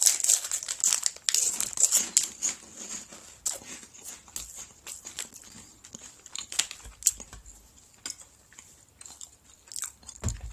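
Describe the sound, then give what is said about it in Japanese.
Crinkling packaging and crunchy chewing come as someone eats a takoyaki-flavoured snack in two bites. Rustling bursts dominate early, then irregular crunches and chews grow softer. “これをね、二口で私、完食しますんでね。ちょっと待っててくださいよ。”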